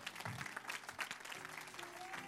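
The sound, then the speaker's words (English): A church audience claps hands in praise during a morning service. The clapping is dense and continuous, fairly faint, and runs steadily through the whole stretch. “come on, give God a hand clap of praise.”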